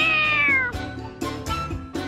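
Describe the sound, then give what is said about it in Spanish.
A cat meows loudly, beginning with one long, high cry that falls in pitch. A few shorter meows follow in an uneven rhythm, with no other sounds. “Salió en busca de fortuna, sin más compañía que su fiel gato.”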